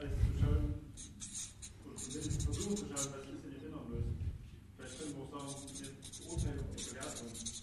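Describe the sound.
A pen scratches across paper in many short, irregular strokes. The bursts of dry scraping come and go in uneven clusters, faint overall.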